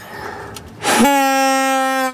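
A Belgian football supporter's handheld horn, blown once in a sustained, steady, buzzy blast of about a second. A brief rushing hiss comes just before the blast.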